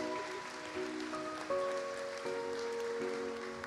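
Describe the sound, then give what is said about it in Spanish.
Congregation applause welcomes a preacher at a Sunday church service: steady, dense clapping sustained throughout, with held keyboard chords ringing underneath. “Vamos a darle la bienvenida al doctor Carlos Samayoa. Recíbalo con un fuerte aplauso, por favor.”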